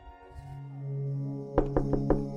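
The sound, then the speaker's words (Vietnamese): Four sharp knocks on a room door, quick and evenly spaced, come near the end over a sustained low musical drone. “Tiếng gõ cửa cộc cộc làm cho Tuấn giật mình tỉnh giấc.”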